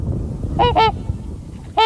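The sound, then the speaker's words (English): Trumpeter swans, about 200 roosting on water and ice edges at dawn, give three loud, rich trumpet-like honks, two in quick succession and then one more, over a low rumbling background. “There's about 200 trumpeter swans on the water right now, or on the edges of the ice, and they're just starting to wake up for the morning.”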